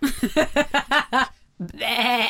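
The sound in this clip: A voice imitates a sheep bleating: a quick run of short, wavering, nasal bleats, then one longer drawn-out bleat after a brief pause.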